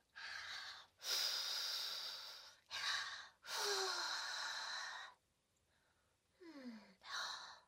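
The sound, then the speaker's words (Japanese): Several breathy puffs are blown onto hot nikujaga, a Japanese simmered meat and potato dish, to cool it before feeding. The soft, airy blows come in separate bursts of varied length, with a short gap before the last few. “ほら肉じゃがだよ。熱くないようにふうふうしてあげるね。”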